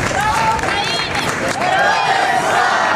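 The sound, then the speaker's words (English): A crowd of Ukrainian refugees in London cheers and shouts in welcome for the Ukrainian president, a loud, continuous roar of many voices with rising calls. “Ukrainian refugees welcoming Zelensky before he and British Prime Minister Keir Starmer got down to business.”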